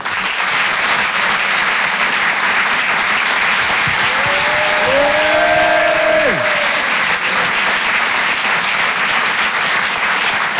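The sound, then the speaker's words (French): Audience applause and cheering at a comedy and song show in a theater: a dense, steady roar of clapping runs the whole time, with a few rising and falling whoops from the crowd in the middle. “Faites du bruit, s'il vous plaît, pour Maoulé.”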